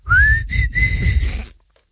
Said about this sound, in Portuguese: Então assobia lá isto.